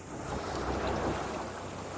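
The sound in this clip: Sea waves washing around a stopped fishing boat with its diesel motor off, a steady, even rushing wash with no distinct breaks, heard alone without voices.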